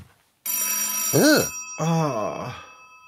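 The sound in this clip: A telephone rings: a bright, continuous, high-pitched tone overlaid with warbling bursts that arch up and down in pitch, holding at moderate loudness after a brief quiet start.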